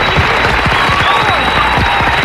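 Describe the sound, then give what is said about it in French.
Loud studio applause on a French radio show, many hands clapping in a thick, continuous burst with sharp individual claps standing out throughout. “Donc là je vais dire on va t'applaudir, bravo. D'ailleurs on va y mettre plus le paquet.”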